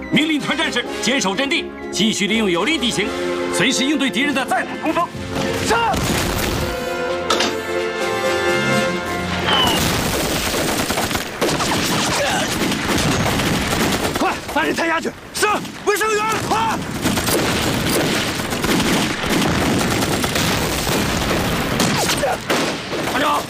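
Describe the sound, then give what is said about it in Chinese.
Artillery bombardment of a defended position in a wartime battle: a dense, loud, continuous barrage of blasts and crackling gunfire that runs without letup. “现在他们正用大炮对我阵地进行轰击。”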